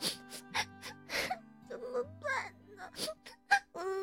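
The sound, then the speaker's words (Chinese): A girl sobs and whimpers as she sits on a stone by a pond after losing her golden ball. The cries come in broken, wavering bursts of rising and falling pitch. “她觉得好难过，不知道该怎么办，只能坐在池塘边的石头上哭了起来。”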